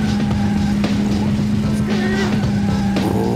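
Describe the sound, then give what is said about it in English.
Racing-car engine sounds from an N64 rally video game: a loud, steady engine drone with a sustained low hum and higher tones that shift and waver, plus occasional sharp bursts. “Racing sounds, so nothing crazy happens here.”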